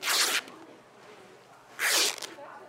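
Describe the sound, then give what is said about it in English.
Fabric being torn by hand into strips for the handles of recycled, reusable shopping bags: two sharp, loud ripping bursts separated by a quieter pause. “This is just a station for tearing the fabric into the sides for the handles.”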